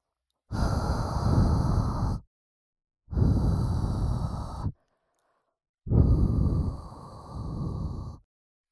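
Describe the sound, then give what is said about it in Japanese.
Three soft, airy blows into an ear to clear away fine dirt, each lasting one to two seconds with short silences between them. The last blow is the longest and swells twice. “ふうふうして細かい汚れを吹き飛ばすのが最後の仕上げなので。”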